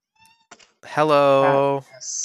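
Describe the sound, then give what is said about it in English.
A pet cat meows once, a drawn-out, tonal, fairly loud meow, preceded by a few faint short sounds and followed by softer noise. “hello Kitty, go on out.”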